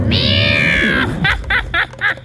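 An escaping cat gives one long, steady, high meow, then a few short, choppy meows in quick succession that sound like a sneering, laughing yowl.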